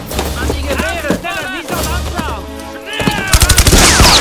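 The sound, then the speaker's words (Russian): Gunfire from German soldiers firing out of trenches, a rapid burst of sharp shots in the last second, after stretches of voices and other sound. “Немецкие солдаты из окопов открывают огонь.”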